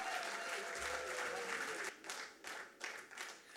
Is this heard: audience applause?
yes